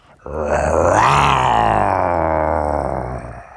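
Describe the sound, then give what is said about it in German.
A person imitates a jaguar with one long, rough growling roar. It starts abruptly, stays loud and steady for about three seconds, then trails off. “das war ein Jaguar. Richtig, jawoll.”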